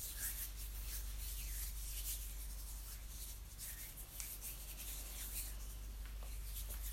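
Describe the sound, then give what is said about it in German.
Hands rubbing together as if washing with soap make a continuous soft, dry, swishing friction that stays faint and steady for about seven seconds. “man die ja so aneinander, verteilt die Seife und wäscht sich die Hände. Genau diese Bewegung macht ihr aber jetzt für euch einfach mal eine kleine Weile lang”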